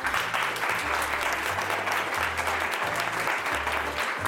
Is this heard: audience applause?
yes